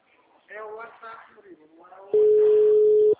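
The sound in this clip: A single steady ringback tone of an outgoing telephone call sounds for about a second, clear and even, after people talk briefly.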